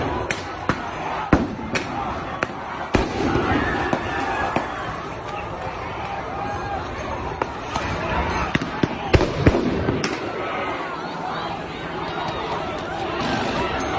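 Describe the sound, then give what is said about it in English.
Police flashbangs and rubber bullet guns fire indiscriminately into a crowd during pepper-spraying. Many sharp, irregular bangs and pops cut through continuous crowd noise and shouting voices. “Rather indiscriminately, and you could hear them firing now their rubber bullet guns.”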